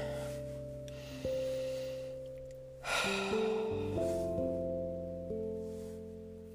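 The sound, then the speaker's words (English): A single slow, deep breath drawn in during a guided breathing exercise, a soft airy rush that rises and fades over gentle sustained synth chords, with no talking. “take a deep breath”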